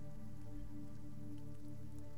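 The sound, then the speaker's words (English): Rain falls in a faint, steady patter, an even hiss of many small drops on surfaces that continues without a break or any voices. “The rain continues.”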